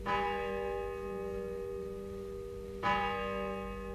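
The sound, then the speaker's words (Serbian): A distant church bell rings out over the sea, with two strikes whose long, humming tone lingers between them above a steady wash of surf. “Malo dalje, more zapljuskuje plažu. Na mahove vetar donosi zvuk crkvenog zvona.”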